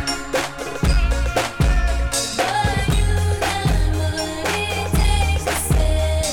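A pop-disco song plays, with a steady thumping beat, heavy bass pulses and bright layered instrumentation throughout, and no talking.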